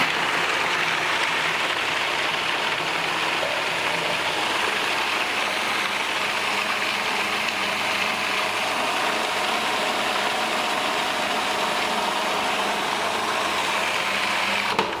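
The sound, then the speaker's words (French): A food processor coarsely blends raw food ingredients with a steady, loud motor whir. The dense buzzing drone runs without a break for about fifteen seconds, and no voices are heard. “Et maintenant, donc, on va mixer tout ça.”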